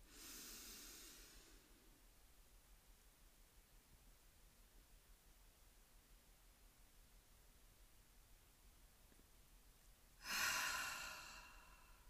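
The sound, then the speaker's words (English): One deep breath is drawn in with a hissing rush at the start, followed by a long, near-silent hold, then released in a strong, airy exhale that fades near the end. “On this third one, I'm going to hold for a couple seconds at the top. It's going to be the deepest breath that I've taken today.”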